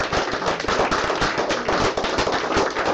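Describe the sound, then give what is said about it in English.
Studio audience applause on a television talk show as a guest is welcomed: a dense, steady wash of many hands clapping, holding an even level for the full stretch without a break. “give Kelly a nice round of applause.”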